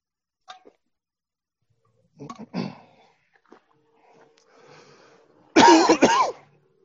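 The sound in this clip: Coughing and throat clearing from a preacher with an irritated throat mid-sermon: a faint catch, then a pair of rough throat-clearing bursts, and finally a louder, harsh cough burst near the end, with quiet pauses between.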